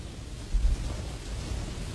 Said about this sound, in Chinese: 用这个雨声讲个故事给你听